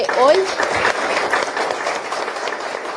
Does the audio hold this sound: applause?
yes